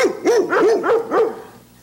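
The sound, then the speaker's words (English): A dog barks in a quick run of sharp, mid-pitched barks, each with a rising and falling arch, evenly spaced and loud, then it trails off into quiet. “the Virginia dog, who was sentenced to death for barking. It was just bark, bark, bark, bark, bark.”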